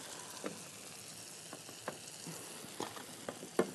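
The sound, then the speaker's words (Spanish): Tortillas heating in a pan give a faint, steady sizzle, broken by a few soft pops and crackles. “Y vamos a calentar las tortillas para armar unos taquitos y hacer nuestro plato bien delicioso para nuestra familia.”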